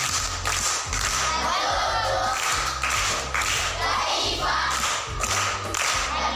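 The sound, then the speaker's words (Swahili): Clapping from an audience at a primary school gathering, loud and steady for several seconds in an even, pulsing rhythm. “Makofi kwa mjomba.”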